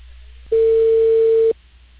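A single steady telephone tone lasts about a second over faint line hiss as a cable company places a call about a service installation. No voices are heard.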